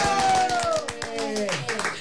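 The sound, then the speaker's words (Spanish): Brisk clapping greets a singer joining a Spanish-language variety programme. A quick run of sharp claps sounds under a sustained, gradually falling vocal tone. “¡Aplausos!”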